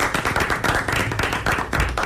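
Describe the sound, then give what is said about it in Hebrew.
Hands clapping in brisk applause at a religious study session about quizzes and rabbinate exams. Many sharp, loud claps form a dense, slightly uneven rhythm with no talk over them. “כבר אנחנו מחיאות כפיים, אני חושב.”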